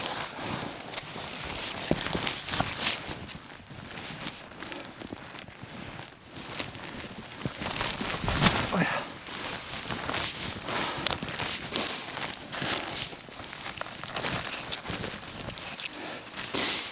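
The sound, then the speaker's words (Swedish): Footsteps climbing down large boulders in a dense spruce forest: many irregular crunching steps, scrapes and crackles of twigs and needles, with no clear rhythm. “Klättrar just nu ner från några stora bumlingar och granarna står här och överlappar varandra verkligen.”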